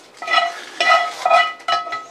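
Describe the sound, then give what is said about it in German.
Scraping out a frying pan with fruit juice and meat residue stuck to it: four rasping, slightly ringing scrape strokes in a quick, uneven rhythm, with no voices. “Absolut essentiell, dass man aus dieser Pfanne alles rauskratzt”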